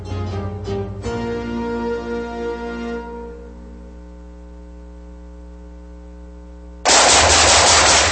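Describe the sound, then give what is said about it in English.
Gunfire rings out as a rapid burst of shots at the start, followed by fading ringing tones and then a loud, sustained blast of noise near the end. “Nice shooting.”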